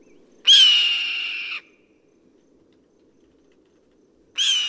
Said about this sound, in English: That is the cry of a red-tailed hawk.